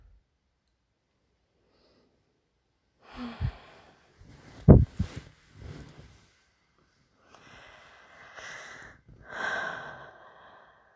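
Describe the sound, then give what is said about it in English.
A few deep breaths drawn through the nose, one sharp, snorting intake followed by softer, longer inhales and exhales, separated by near silence. “Just take deep breaths through my nose.”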